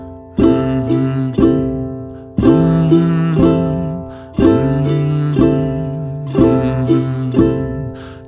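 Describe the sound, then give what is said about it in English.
A strumming pattern with two strums on the first beat, played as ringing strummed chords. Two quick strums are followed by a single one, and the short pattern repeats about four times with even timing. “Let's put two strums on the first beat instead of the second. Well, that would sound like this.”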